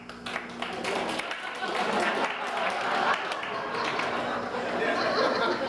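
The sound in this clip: A comedy club audience at a local club applauds amid chatter and scattered laughter. Clapping builds after the first second and stays fairly full, mixed with talking voices throughout.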